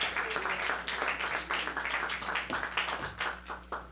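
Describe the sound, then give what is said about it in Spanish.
An auditorium audience gives a university choir warm applause, a dense, even patter of many hands clapping at once that holds steady throughout. “vamos a brindarles un aplauso cálido al coro de la Universidad Veracruzana.”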